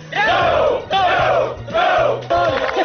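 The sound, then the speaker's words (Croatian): Former work brigade members in Užice shouting cheers in unison, four loud chanted bursts following one another in a steady rhythm. “Užicem odjekivali pozdravi nekadašnjih akcijaša.”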